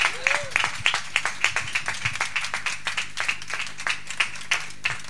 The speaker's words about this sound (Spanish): Un aplauso, sí, sí.